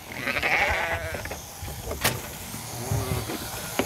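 Norwegian fjord sheep bleating during shearing, a few short wavering bleats over intermittent mechanical whirring and clatter, with sharp knocks scattered through.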